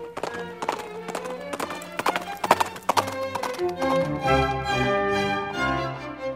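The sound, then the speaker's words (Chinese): A ridden horse trots with quick, crisp clip-clopping hoofbeats, followed by a drawn-out, wavering neigh. “起初约翰慢慢地骑着我，接着快步地走，之后是小跑步。”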